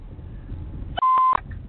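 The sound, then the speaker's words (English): A phone notification sounds in a car as it is being driven: a single short, steady electronic beep lasting about a third of a second, heard over a low rumble. “I'm driving your car, but I just got a notification”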